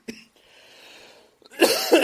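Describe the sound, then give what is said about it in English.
A person coughs while reading aloud from scripture, with a short sharp cough first, then a quiet breathy pause, then loud, harsh coughing bursts. “and as you can tell, I have the cough again.”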